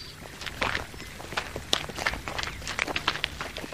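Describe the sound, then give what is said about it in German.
Footsteps of people walking together through a park: many crisp, fairly regular steps over a steady soft hiss, with no voices. “Komm, wir gehen ein bisschen durch den Park.”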